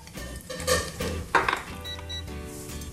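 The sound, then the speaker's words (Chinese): Shiitake mushrooms and baby corn go into a hot wok for stir-frying, with a few metallic clanks of utensil on pan and a scraping stir over a soft sizzle. “好，香菇加下去，好，这个呢，玉米笋也是加下去”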